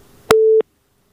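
Telephone busy tone after a phone call cuts off: a click, then one short, steady mid-pitched beep, followed by silence.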